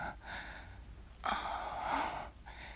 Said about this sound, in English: I can hear your breath in my ear